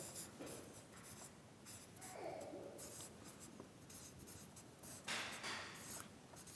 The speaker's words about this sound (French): Je vais écrire un petit peu.